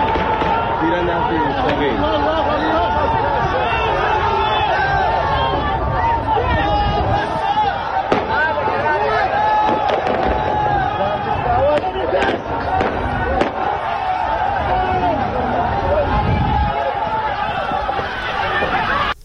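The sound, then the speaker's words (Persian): Gunshots during a street protest in Zahedan, where a police station was attacked: scattered sharp cracks burst out over a loud, unbroken crowd hubbub and shouting. “همطور که گفتم صدای تیراندازی رو توی این ویدیو میشنویم که خیلی هم زیاد هست”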